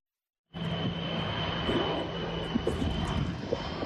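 Steady, loud drone of a firefighting aircraft's engine flying over a forest-fire zone. It starts abruptly and holds an even roar with a constant low hum and a high whine throughout.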